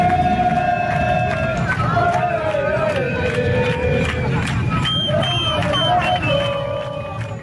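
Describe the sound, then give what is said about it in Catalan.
Street crowd at an FC Barcelona parade through the city, a steady, loud din of many voices with sustained tonal calls or horns rising above it, easing slightly toward the end. “És la rua del Barça, que ahir passava pels carrers de la ciutat”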